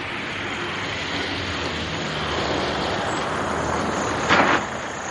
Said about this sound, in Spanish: Al día siguiente, Francisco llega en taxi a las afueras de la ciudad.